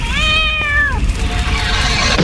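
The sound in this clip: A cat meows and yowls in long drawn-out calls. The first call is loud and drops in pitch at its end, and a softer second call follows over a steady low rumble.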